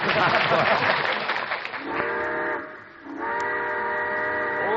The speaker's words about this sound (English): All aboard. Well, it looks as though we're ready to pull out.